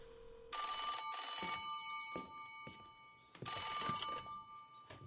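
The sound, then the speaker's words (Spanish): A telephone rings in two long electronic bursts of bright, trilling tone, separated by a quieter gap with brief pulses, fairly faint overall and with no voices. “llama por teléfono. Vuelve a llamar.”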